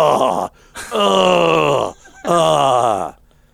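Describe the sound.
A voice imitates a man groaning as he bends over to put kibble in a dog's bowl. There are three drawn-out, throaty groans, each sagging lower in pitch toward its end, separated by short pauses.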